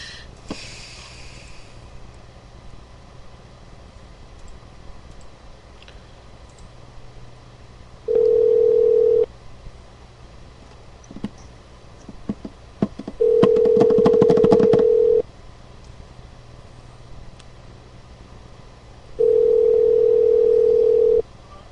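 Telephone tones as a call is placed, a steady mid-pitched beep sounding three times for one to two seconds each, separated by several seconds of low background noise.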